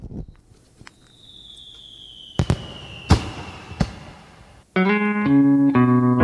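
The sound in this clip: Fireworks burst at a New Year celebration: a long, falling whistle is followed by a few sharp, loud cracks, and then tonal music begins.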